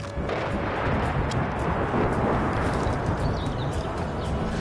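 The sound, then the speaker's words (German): Gunfire and explosions in a war scene in an inhabited town with many fires burning: a continuous heavy rumble of overlapping booms and blasts, loud and dense throughout, with no clearly separate shots. “Sie schießen. Hol sie doch, der Teufel. Wo sind die Feuerwehrleute? Du siehst doch, wie viele Brände hier sind.”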